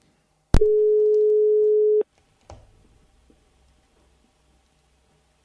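A telephone call tone sounds while a guest is being called: a click, then one steady mid-pitched tone held for about a second and a half, followed by a few faint clicks.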